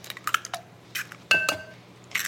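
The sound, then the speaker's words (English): Two eggs cracked against the rim of a bowl holding buttermilk and whole milk, giving a few light taps and clicks and one sharper knock with a brief ringing clink, with no voices. “And then 2 eggs, I'll just crack them right in.”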